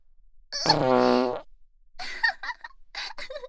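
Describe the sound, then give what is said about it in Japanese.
A single drawn-out, buzzing fart lasts about a second, fairly loud and tonal, followed by fainter breathy, sputtering sounds. “臭そうなおならだったわね。 ケツの暑さでわかるわ。今の部屋は確実に地獄よ。 悶絶しちゃってるところ悪いけど、私も、”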